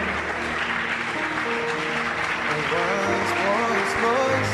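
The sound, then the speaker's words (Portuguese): Applause from a church audience during a service, a continuous dense patter of many hands at steady loudness, with sustained musical tones running beneath it. “Ou mais pessoas estão a vir, uma salva de palmas.”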